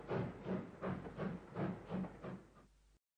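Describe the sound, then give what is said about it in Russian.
A steam locomotive chuffs as it pulls away, quiet puffs of hissing steam repeating in an even rhythm, several in a row, before the sound cuts off abruptly. “Паровоз засвистел, зашипел, вздрогнул и тронулся. Застучали колеса, наматывая метры, и увозя Сашку”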